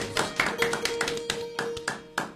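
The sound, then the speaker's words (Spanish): Applause from an audience at a community gathering, sharp claps falling in a steady, even rhythm, many beats in quick succession. “Fuertes palmas.”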